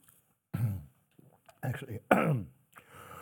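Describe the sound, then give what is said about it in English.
A person clears their throat after a cold, making a few short, rough, voiced rasps separated by brief pauses. “Just had a cold. A little residue clearing of the throat.”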